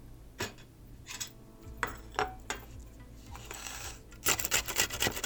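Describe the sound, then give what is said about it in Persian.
An onion being rubbed against a kitchen grater, giving rough, rasping scrapes. A few spaced strokes come first, then a quick, steady run of many strokes, all fairly quiet. “مرحله دوم یه پیاز رو باید رنده کنید.”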